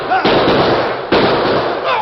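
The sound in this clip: Gunfire in a western shootout: two loud bursts of rapid crackling shots that blur into a dense, continuous roar.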